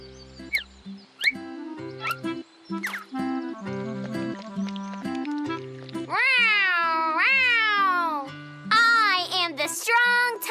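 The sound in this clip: Cat meowing, a cartoon cat stuck up high and needing rescue: a few drawn-out, wavering meows that rise and fall sharply in pitch, loud over a musical backing.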